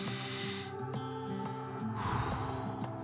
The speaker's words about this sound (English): So let's begin our day by taking a few deep breaths.